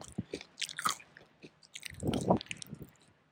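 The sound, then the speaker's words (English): Someone chewing barbecue while tasting it, faint wet squishy bites and small crunches in an irregular rhythm, with no talking. “Just taste that barbecue, so you're not missing out.”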